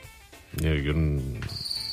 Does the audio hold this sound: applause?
no